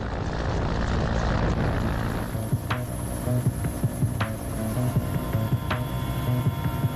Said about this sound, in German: Es gibt Situationen, in denen ein Hubschrauber aus dem einen oder anderen Grund nicht landen kann.